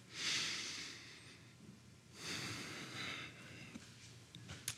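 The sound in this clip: A group takes deep breaths in, two long, soft, hissy inhalations rising and fading, quiet and without talk.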